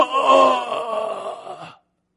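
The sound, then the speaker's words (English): A single drawn-out human groan, a voice imitating someone squeezed under heavy pressure. It is low and moaning, holds for under two seconds, then cuts to silence. “They're groaning. Their spirit is being squished.”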